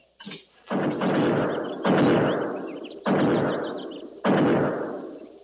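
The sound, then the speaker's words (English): Buffalo gun shots ring out as four heavy, booming blasts at fairly even intervals. Each has a long, rumbling decay, and a lighter thump comes just before the first shot. “Buffalo guns. That's one sound they can't muffle.”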